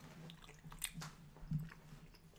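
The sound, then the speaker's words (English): Quiet chewing of Haribo gummy bears, with soft, moist squishing bites that rise briefly in loudness a couple of times over a faint steady hum. “This is the Haribo gummy apples going in.”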